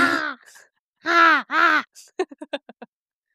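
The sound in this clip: A crow caws, giving a harsh opening call and then two drawn-out rasping caws, followed by a rapid run of about six short, clipped notes. The calls are loud and stand alone, without talk.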